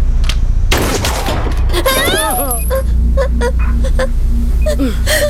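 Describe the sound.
Gunshots crack out in a few sharp bursts over a steady low drone, with voices heard around them.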